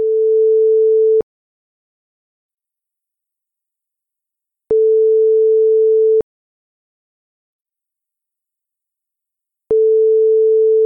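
A telephone ringback tone plays while a call is placed, three steady mid-pitched beeps, each lasting just over a second and separated by long silent gaps.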